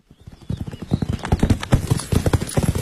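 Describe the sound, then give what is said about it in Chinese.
A horse's hooves clip-clop steadily as a rider travels out into open countryside. The hoofbeats are many and rhythmic, with no voices present. “骑马向东南方向行，逐渐步入郊外的荒野。”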